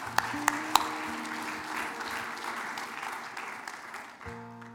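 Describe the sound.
Applause from a church audience: steady, dense clapping that carries on throughout, with a few sharper claps near the start and soft sustained musical tones at the beginning and end.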